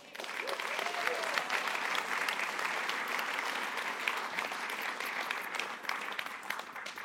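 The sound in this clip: A church audience applauds to welcome a couple onto the stage, with sustained, even clapping from many people that continues throughout.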